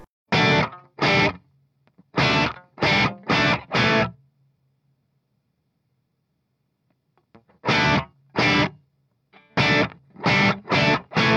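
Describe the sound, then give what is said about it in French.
A heavy, distorted electric guitar riff in an AC/DC-like style plays a D chord over an F-sharp bass moving to a G power chord. Short, punchy chord stabs come in two loud groups separated by a long silence. “Mais à la fin, on déboule quand même avec un gros riff de gratte qui enfonce le clou et qui fait comme ça.”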